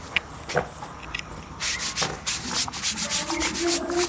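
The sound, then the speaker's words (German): Hands are scrubbed with a brush, rasping strokes that are faint and sparse at first, then turn steady, brisk and rhythmic for the last two and a half seconds. “Wenn Sie das versuchen, mit der Bürste wegzumachen, dann schrubben Sie meine ganzen Hände ab.”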